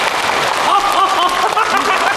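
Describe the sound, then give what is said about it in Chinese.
Audience applause breaks out in a dense, steady patter of clapping that holds at an even loudness throughout, with voices mixed in. “鼓掌鼓掌！”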